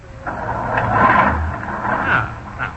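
Low rumbling whir of a car engine being started with a large starter button, swelling and easing over a couple of seconds with a rough, uneven texture.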